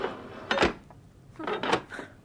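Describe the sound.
Large metal bolts are drawn back to unlock a door, in two short bursts of scraping and clunking separated by a pause, fairly faint and alone.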